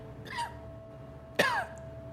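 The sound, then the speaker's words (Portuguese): A person coughs in an empty, silent place, with a soft throaty sound first and then a single sharper, louder cough. Both are fairly quiet over a faint, steady hum. “Um vazio e um silêncio toma conta do lugar. Vocês escutam uma tosse.”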